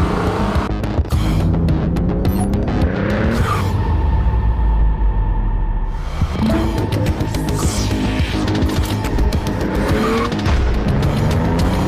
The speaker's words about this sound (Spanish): Escapa de lo normal. Presentamos el nuevo MG GT, el comienzo de la nueva era MG.